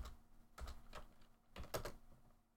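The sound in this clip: Typing on a computer keyboard: a few soft, irregular keystroke clicks spaced apart, faint and alone.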